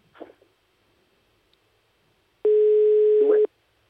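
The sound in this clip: A telephone ringing tone sounds while a mobile phone is being called: one steady, mid-pitched beep lasting about a second, preceded by faint clicks in near silence.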